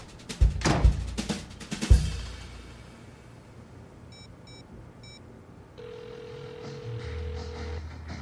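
A telephone call ringing out: faint keypad-style beeps are followed by a steady, mid-pitched ring tone lasting about two seconds over a low background rumble.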